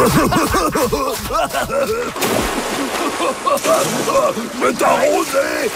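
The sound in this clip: Seawater splashing and sloshing as friends play in the water at a beach, with choppy bursts of spray mixed among excited shouting voices.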